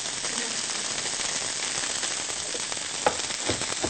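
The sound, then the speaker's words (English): Fresh garlic sizzles in a hot frying pan with a steady, bright hiss throughout and a small clink near the end. “And to this, I'm also going to add some fresh garlic, because we know how much I like garlic.”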